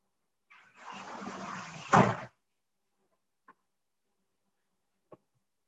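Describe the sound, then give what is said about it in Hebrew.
A window being closed: a rough, broad rushing scrape builds and ends in a solid thump, followed by a few faint, isolated clicks in near silence. “שנייה, אני סוגר פה חלון, שנייה.”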